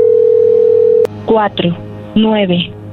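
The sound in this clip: A steady ringback tone on an outgoing telephone call holds for about a second, then cuts off with a click, and a voice speaks afterward.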